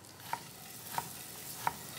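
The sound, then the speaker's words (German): Butter browning in a pan as the whey caramelizes gives a soft, steady sizzling hiss, faint overall, broken by three small, evenly spaced crackling pops. “So, die Butter, da karamellisieren wir jetzt schön die Molke.”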